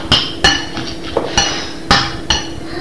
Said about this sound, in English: That's the coffee pot.